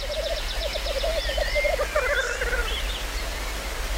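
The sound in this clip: Male birds gathered at a lek display and threaten one another, giving rapid pulsed, bubbling calls, with higher, sharper warbling threat notes woven through, all over a steady background hiss.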